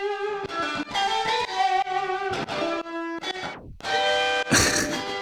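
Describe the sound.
Reamped electric guitar solo, the main lead part, playing a busy run of distorted, sustained notes with quick slides and bends, loud and alone with no voices.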